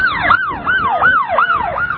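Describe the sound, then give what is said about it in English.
An emergency vehicle siren wails loudly in rapid, repeating up-and-down sweeps throughout, with low road rumble beneath and no talking. “I hate it when radio shows put sirens on the air.”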